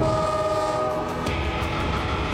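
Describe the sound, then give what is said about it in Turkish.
A northbound freight train hauling oil pipeline pipes toward Anchorage rumbles steadily and loudly, with a sustained horn tone over the first half and rail clatter throughout. “Yük treni kuzeye doğru yol alıyor.”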